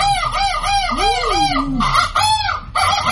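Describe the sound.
Repeated bird calls: many rapid, arched, clucking, rooster-like notes, loud and continuous with no voices. A lower sliding call rises and falls near the middle, followed by a few longer, brighter cries.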